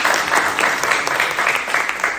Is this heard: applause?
yes